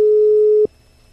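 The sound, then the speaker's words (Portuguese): A telephone call tone for an unanswered call: one steady, mid-pitched tone holds for about half a second and then cuts off abruptly to near silence. “Vou ligar pro Davi.”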